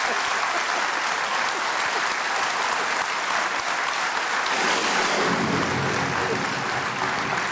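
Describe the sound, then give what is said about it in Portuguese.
Heavy rain pouring down outside a radio studio makes a dense, loud, unbroken hiss, and a low rumble fills in underneath during the last few seconds. “a chuvada brutal que está a cair e que faz com que este som... que fica o som do estúdio, fica um bocado, aí está ela em grande.”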